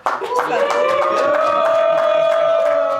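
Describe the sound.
An audience gives steady, loud applause for Team Bitcoin after a round of a live Bitcoin-versus-gold contest. Many hands clap continuously without a break.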